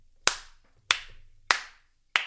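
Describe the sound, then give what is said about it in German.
Applause from an audience in a German quiz segment, heard as four loud, evenly spaced single hand claps, each a sharp crack with a short fading tail, alone and without voices. “Danke, freut mich für den Applaus. Freue ich mich auch erst recht drüber.”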